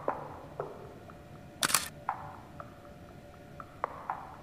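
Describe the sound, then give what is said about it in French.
A single camera shutter fires to take a photo, one brief sharp snap standing out from a faint hiss, with a few softer ticks around it. “Alors, je prends une deuxième photo.”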